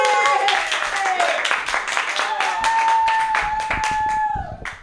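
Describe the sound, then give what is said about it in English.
An audience at a comedy club claps for a comedian taking the stage, brisk steady applause with cheering voices over it, cutting off abruptly at the end. “Put your hands together, everybody, for Chris Knetzer.”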